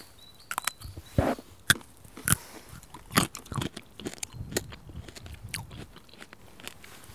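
Crunchy biting and chewing of a raw wild root dug from the ground, still carrying a little sand, heard alone without talk: many irregular, crisp crunches and moist chewing sounds with short pauses between bites.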